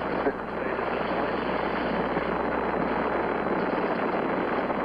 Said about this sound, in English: We have commit and we have liftoff at 2:13. The Saturn V building up to 7.6 million pounds of thrust, and it has cleared the tower.